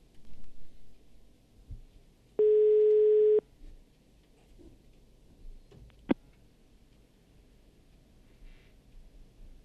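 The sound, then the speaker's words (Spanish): A telephone ringing on the line: a single steady electronic ring tone about a second long over faint background hiss, followed later by one sharp click. “¿Suena el teléfono? Ahí suena.”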